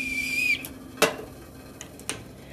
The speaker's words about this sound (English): what's that loud noise? It's the teapot. It's Mommy's favorite teapot.